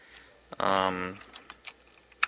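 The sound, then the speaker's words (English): Keystrokes on a computer keyboard at a DOS prompt: a few sharp, separate clicks follow a short spoken phrase, with quiet gaps between taps. “So I'm going to hit escape. Escape, backslash. Gives me a blank line in DOS. I'm going to type in,”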